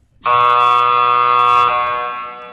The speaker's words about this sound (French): C'est un buzzer old school. Là. C'est comme des gymnases.